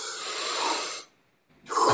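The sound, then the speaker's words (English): A deep, full breath drawn in during a breathing-exercise demonstration: a long, loud airy rush lasting about a second, then a brief pause before the next strong breath begins. “So if it is by this, I would say just breathe in fully.”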